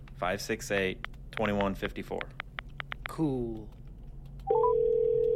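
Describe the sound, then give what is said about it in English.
A mobile phone ringtone for an incoming call cuts in near the end as a steady electronic tone with a short higher blip, after a stretch of people talking. “Dude, you're calling me? Well, answer it.”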